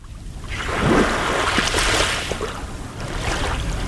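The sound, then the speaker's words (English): Waves wash onto a sandy Lake Michigan beach in Shorewood, on Milwaukee's North Shore. A soft rushing surge swells to a peak around the first second, then settles into a steady, moderate hiss of water and breeze. “That is the sound of Atwater Beach in Milwaukee's North Shore suburb of Shorewood.”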